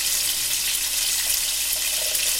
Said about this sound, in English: I'm just going to bring the kettle back to the boil. And then I'm going to pour that into the saucepan.